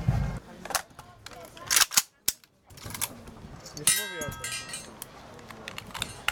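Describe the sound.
Metallic clicks, snaps and clangs of a RAK machine pistol being quickly stripped down, with several sharp separate hits and a brief ringing metallic tone near the end.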